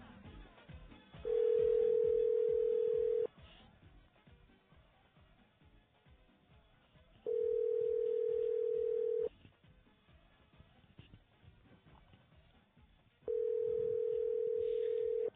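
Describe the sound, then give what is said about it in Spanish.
Ringback tone of an outgoing telephone call placed to a home, three long, steady, even-pitched tones of about two seconds each, separated by quiet gaps of about four seconds, with no answer and no talking. “vamos a llamar a la chica de Kate para ver si está en su casa.”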